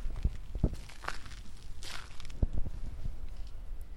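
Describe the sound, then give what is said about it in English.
Footsteps crunch on crushed stone in a garden in Golden Gate Park, a few soft, uneven steps over a steady low background noise. “You might even hear me walk in some crushed stone.”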